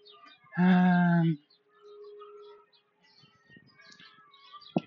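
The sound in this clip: A chicken gives one loud, drawn-out harmonic call lasting under a second, followed by a quieter steady tone and faint scattered background noise.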